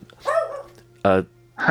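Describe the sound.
A dog gives a few short, sharp barks, the first drawn out and whiny, the later ones clipped and punchy, over a low steady hum.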